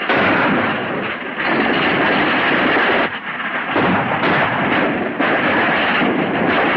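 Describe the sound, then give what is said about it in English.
Heavy gunfire from a shootout between bandits and men on a horse-drawn wagon, a dense, loud, continuous roar of shots with a few brief dips. “The bandits open fire on their own men driving the wagon. Kneeling behind the front seat, John and Pete fire back.”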